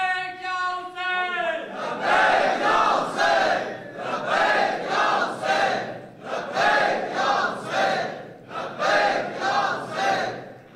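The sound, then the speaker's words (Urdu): A crowd chants slogans at a religious gathering in a steady, repeating rhythm of loud, rolling bursts of massed voices, many in succession. A single raised voice briefly comes before the chanting. “یہ تو بہت تھکے ہوئے لوگوں کی طرح نعرے لگا رہے ہیں آپ لوگ”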